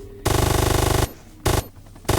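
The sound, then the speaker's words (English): Rapid machine-gun fire in a video game as enemies shoot at the player's base: a long, loud burst of evenly spaced shots, then two short bursts after brief pauses. “they're shooting on your base,”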